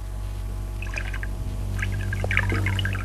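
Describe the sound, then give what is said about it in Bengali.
Water is poured for drinking, a soft bubbly trickle in short bursts over a low steady hum. “আমাকে একটু জল দাও। দিচ্ছি,”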